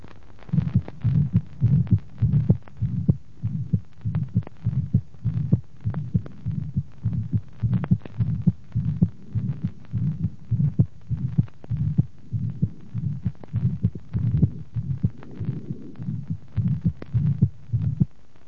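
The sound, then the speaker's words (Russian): A heartbeat with supravalvular pulmonary artery stenosis, each cycle carrying a harsh systolic murmur and a loud, accentuated second heart sound. Many beats follow in a steady, even rhythm, low and thumping, with no talk. “В настоящей записи слышен грубый систолический шум и усиленный второй тон при надклапанном стенозе легочной артерии.”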